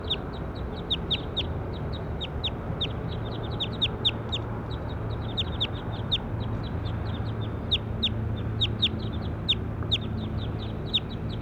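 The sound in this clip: Many short, sharp bird chirps, high in pitch, repeat quickly and irregularly over a steady low background hum, with no voices.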